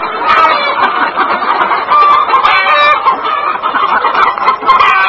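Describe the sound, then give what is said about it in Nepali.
Egg-laying layer hens cluck on a village poultry farm in Nepal. Many birds make a dense, loud chorus of overlapping clucks that stays steady for the whole clip, with no talk. “हरपल केसीले अण्डा उत्पादन गर्ने layers जातका अण्डा दिने कुखुरा विगत 10 वर्षदेखि पाल्दै आउनु भएको छ।”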